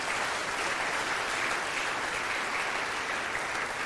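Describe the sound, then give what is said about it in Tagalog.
Audience applause at a church service for the behind-the-scenes camera, tech and media team: a dense, steady wash of many hands clapping that holds at an even level throughout. “Pwede bang palakpakan natin yung mga nag-work behind the scenes?”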